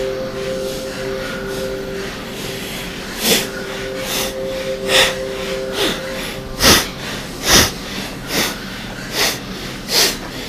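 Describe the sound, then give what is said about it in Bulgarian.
Forceful bhastrika bellows breathing pumped through the nose: about nine sharp, evenly spaced breath bursts in a steady rhythm. A faint steady drone sits underneath the first part. “Бастрика, прана яма.”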